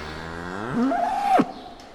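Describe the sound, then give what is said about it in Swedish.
A cow moos in one long, loud low whose tone rises through its length and then drops sharply at the end, followed by quiet. “Kor.”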